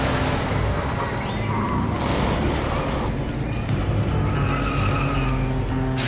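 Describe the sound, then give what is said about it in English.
A car drives through city streets toward an amusement park, its engine running steadily throughout, with squealing tires marking the sound. “drives through the streets and arrives at the amusement park.”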